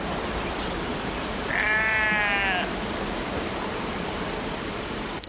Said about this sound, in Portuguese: O pastor acaba de tirar as suas ovelhas do ovil, colocá-las durante umas horas no campo, para depois, mais tarde, as recolher e as ordenhar.